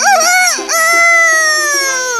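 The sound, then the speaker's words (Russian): A rooster crows loudly in one long, drawn-out call of bright harmonic tones, with a brief dip near the start before the cry carries on. No talk is heard. “Петушок вскочил и во все горло закричал.”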